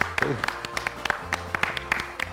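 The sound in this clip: A small group of children clapping their hands, with sparse, uneven claps instead of dense applause, and a voice talking softly underneath.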